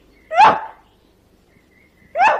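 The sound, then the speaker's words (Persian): A human voice imitates a dog barking with two short, gruff barks separated by a long pause, loud and alone. “تو مثل سگ هوپر پارس نمی کنی. اون اینجوری پارس میکنه.”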